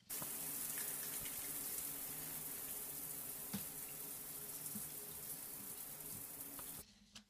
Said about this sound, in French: Donc c'est le son de la douche car il ressemble au son de la pluie.